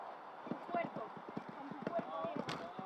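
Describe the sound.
A horse gallops during a show jumping round, its hoofbeats giving a quick, rhythmic series of thuds under a voice commenting throughout.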